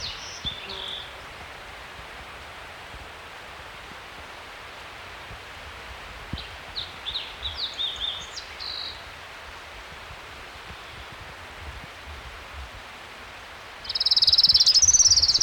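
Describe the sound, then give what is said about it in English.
An orange-crowned warbler sings along a creek at 6,300 feet: thin, high trills, faint at the start, a stuttering run midway, and a louder, sustained trill at the end, all over a steady background hiss. “Orange Crown Warbler, number one. 6,300 feet along Trout Creek.”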